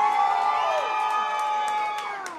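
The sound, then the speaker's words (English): A fired-up crowd of more than 400 cheers after a congressman's re-election win in Florida's 9th District: loud, sustained shouts and high whoops that hold steady and then ease off slightly at the end. “That was U.S. Representative Alan Grayson speaking to a fired-up crowd of more than 400 after winning re-election in Florida's 9th Congressional District.”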